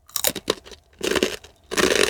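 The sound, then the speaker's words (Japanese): Crunchy bites of blue, seafood-flavored Jagarico potato snack sticks. A few bursts of crisp, crackly crunching come in clusters separated by short pauses, loud and close, with no talk. “でもこの青いじゃがりこ知らずに食べてたら、あの周りから見た人は何食べてるんだってなりますよね。”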